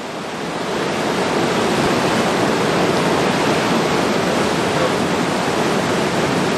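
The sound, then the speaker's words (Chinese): The tidal bore at Yanguan roars in as a dense, steady rushing wall of water noise that swells during the first second and then holds loud and unbroken. “除了看得清潮水的姿态，我们更听得见它由远及近的像立体声一样的声响。我们不妨放大现场声，一起聆听大自然的力量。”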